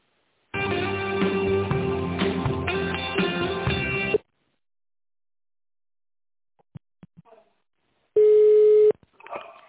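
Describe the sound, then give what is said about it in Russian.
Telephone line tones sound during an office call transfer: several seconds of continuous, band-limited tonal signal, then a few faint clicks, then one short steady beep. “Поняла, минуту, переведу звонок.”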